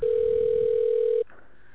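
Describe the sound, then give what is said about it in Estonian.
A telephone ringing tone sounds while calling a bakery company's order line: one loud, steady, mid-pitched tone holds for just over a second, then cuts off abruptly, leaving a faint hiss. “Helistate Fazer pagarid tellimiskeskuse telefonile.”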